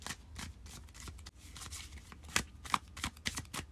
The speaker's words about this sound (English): So let's pull some cards for the first week of January.